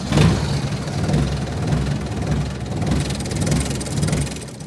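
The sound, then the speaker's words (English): A diesel engine rumbles on a short, squat four-person ride vehicle carrying visitors through a Kentucky coal mine. The low, throbbing drone has a humming tone and swells and dips in a steady, regular pulse, with no voices. “Back in the mine, we board a four-person diesel ride. It's short and squatty to navigate some low roof areas”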